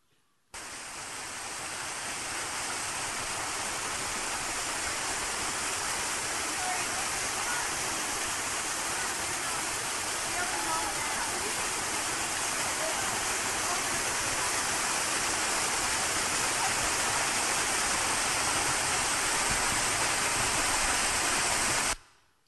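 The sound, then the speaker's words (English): Steady rush of water flowing from a desert spring, caught on a phone: a broad, continuous hiss that holds even and unbroken throughout, with no other clear sounds. “crank up the volume. I want you to hear the spring.”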